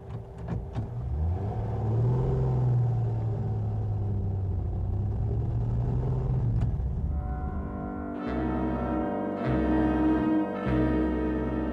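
A car drives away, its engine a steady, low rumbling drone that continues throughout.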